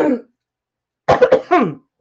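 Throat clearing by a person who is hoarse in the morning: a brief rough burst, then after a pause a longer, voiced, raspy clearing made of a few quick pulses.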